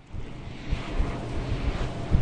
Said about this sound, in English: The 130 wind turbines you can hear behind me are producing enough power for